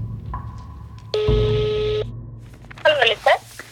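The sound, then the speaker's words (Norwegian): Telephone tone while placing a call: a single steady electronic tone lasting about a second, standing out against a quiet background. “Jeg begynner å ringe rundt til personene på lista for å finne ut av hva de husker fra den dagen.”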